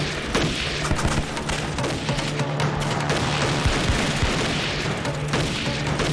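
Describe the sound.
Gunfire fired on command blends many shots into a dense, continuous barrage that stays loud and steady throughout, with no voices.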